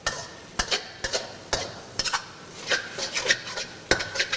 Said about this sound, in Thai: เทคนิคง่ายๆไม่ให้เส้นขาดก็คือจับตะหลิวเนี่ยครับลงแล้วค่อยๆคนอย่างนี้นะฮะเพื่อที่จะไม่ให้เส้นติดกัน